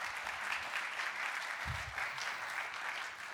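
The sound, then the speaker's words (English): A church audience applauding to welcome a singer, steady and fairly faint clapping that holds evenly throughout the short stretch. “So we welcome her. Let's give her a hand. Glad she's here.”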